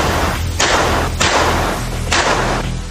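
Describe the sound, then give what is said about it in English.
A Glock pistol fires at a gun range, three sharp shots at uneven intervals, each a hard crack with a short noisy tail over constant background noise. “But first, I warmed up with a pistol.”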